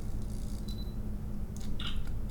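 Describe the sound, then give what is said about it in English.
Camera shutter clicks while someone snaps picture after picture of a homemade drink: a few soft, brief, crisp clicks scattered over a steady low hum. “And I'm just taking more and more pictures just to try to get a good one here.”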